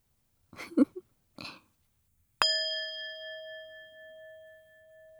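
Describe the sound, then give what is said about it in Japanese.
A metal singing bowl struck once, giving a bright ringing tone with clear overtones that slowly decays over several seconds; two brief throaty noises come just before the strike. “お寺の ASMR？ 違うんだ。これはシンギングボール。”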